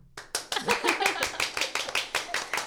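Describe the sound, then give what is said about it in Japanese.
Hand clapping from one person who has set down a microphone: a quick, steady run of many sharp claps with even spacing. “今日私片手でマイク持ってて拍手できないので一回マイク置いて拍手しますね。”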